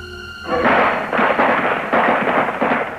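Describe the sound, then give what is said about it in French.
A volley of rifle gunfire at Kent State University in 1970, with about sixty live rounds fired in some thirteen seconds. After a quieter opening it becomes a loud, dense, continuous crackle of shots with no clear gaps between them. “Et en un peu plus de 13 secondes, une soixantaine de balles ont été tirées. An estimated 60 rounds of live ammunition are discharged.”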